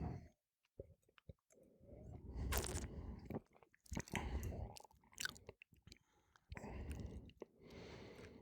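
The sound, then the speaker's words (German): Quiet slurping and wet mouth sounds as someone sips a 2014 spring wine: a few short, soft bursts separated by brief pauses, faint and without talk. “Ich nehme einen Schluck.”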